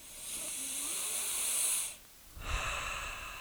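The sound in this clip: A deep breath is sniffed in through the nose as a long, breathy hiss, then after a brief pause a second rush of air follows.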